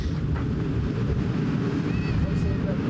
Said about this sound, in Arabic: ما نسمعه الآن أصوات طيران؟ نعم نعم، هي مقاتلة إسرائيلية تحلق على علو منخفض